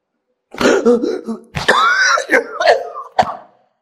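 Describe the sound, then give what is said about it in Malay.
A man coughs and clears his throat during a religious lecture. It comes as a few harsh bursts mixed with rough, voiced sounds, loud and alone. “Itu ah, saya batuk.”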